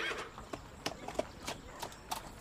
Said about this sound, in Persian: خدیجه میرسه و از اسب پیاده میشه.